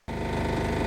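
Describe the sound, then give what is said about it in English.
A tractor engine starts abruptly into a steady, throbbing rumble with a low, even pulse. The tractor is one of many blocking a major highway near Charles de Gaulle Airport, north of Paris, during a farmers' protest. “This is the sound of one of dozens of tractors blocking a major highway just a few miles from Charles de Gaulle Airport”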